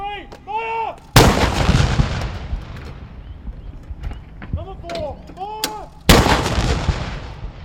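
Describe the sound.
Two loud artillery blasts from a 19-gun ceremonial salute marking the formal end of a parliament. Each boom strikes suddenly and rolls off in a long rumbling decay, with a voice heard in the quieter gap between them.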